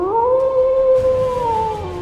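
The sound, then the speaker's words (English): A vicious Ice Age dire wolf gives one long howl that holds a steady pitch and then dips near the end, loud and alone. “they find themselves face to face with a vicious dire wolf”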